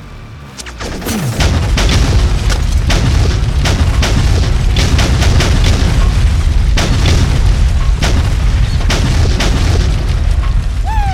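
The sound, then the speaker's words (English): Bombs explode on target during an airstrike: a loud, sustained, rumbling roar of many overlapping heavy blasts. It swells up after a brief quieter start and stays at full strength to the end. “Good hits. Bombs on target.”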